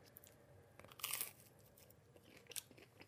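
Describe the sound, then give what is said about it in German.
Chicken nuggets with curry sauce are chewed in quiet, crunchy bites, with one louder crunch standing out among a run of softer chewing and mouth clicks. “So, jetzt wird gefressen. Bis später. Mm, Chicken Nuggets mit einer currigen Soße.”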